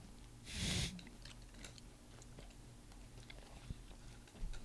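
Someone chews a chocolate cocoa nug: one loud crunchy bite near the start, then faint scattered clicks of chewing under a quiet background hiss.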